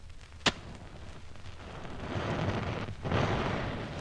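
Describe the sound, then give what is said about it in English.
Gunpowder spread on a tray is lit with matches: a sharp strike, then a quiet stretch, then a rushing, crackling flare that swells in two surges as the fire catches. “You like the little fire.”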